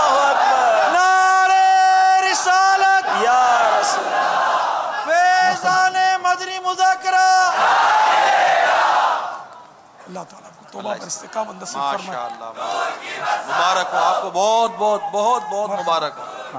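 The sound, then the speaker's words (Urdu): A crowd roars back in unison to a takbir chant: two long, loud massed shouts with strong vocal tone, then a single voice speaking over quieter background. “ماشاءاللہ نعرہ تکبیر اللہ”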